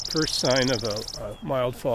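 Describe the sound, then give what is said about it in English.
A chipping sparrow lingering late in November gives a thin, very high call, heard as a rapid series of faint, sharp pulses during the first second, beneath a man talking. “A little high seat sound you're hearing is the chipping sparrow.”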